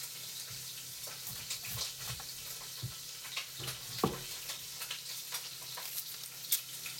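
Meat browns in a pot with a faint, steady sizzle. Scattered louder pops and crackles break through, and there is no talking.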